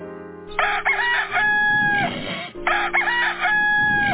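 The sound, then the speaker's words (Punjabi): A rooster crows twice, each crow loud and drawn out with a harsh, wavering tone, the second following closely after the first, with no voices. “ਉਸ ਵੇਲੇ ਜਦੋਂ ਮੁਰਗ ਨੇ ਬਾਂਗ ਦਿੱਤੀ”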